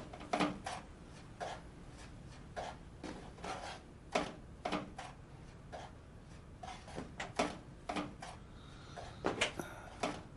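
Rummaging through kitchen cupboards and drawers in search of a rock candy jar: many faint, scattered knocks, clicks and clattering bumps come at an irregular rhythm, with brief pauses in between.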